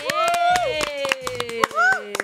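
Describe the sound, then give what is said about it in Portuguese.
Scattered hand claps break out to celebrate a program's first month, sharp and irregular, sounding under lively voices as people keep talking. “Uma salva de palmas, porque nós estamos celebrando um mês de programa.”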